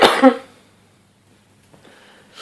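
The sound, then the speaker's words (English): A single loud, harsh cough bursts out at the start, then fades into near silence with only faint rustling afterward. “Excuse me, sorry. No, it's okay. I'll try to time it so I can edit around it, so that's why I don't talk. It's one cough.”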